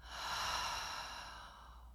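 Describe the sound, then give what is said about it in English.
A single slow, deep belly breath taken sitting up in bed during a morning breathing exercise, a soft airy rush lasting about two seconds, faint and heard alone without talk. “Big breath in through the nose. Open mouth, exhale.”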